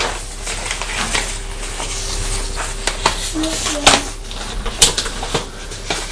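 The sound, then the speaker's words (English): Papery rustling comes as an envelope is opened and a card is pulled out, the card partly stuck to the envelope by glue. Sharp crackles and a few louder snaps stand out from a soft, steady background. “I'm just opening this letter that's arrived in the post. Looks like some of the glue from the envelope was stuck on the card, which is why I couldn't open it.”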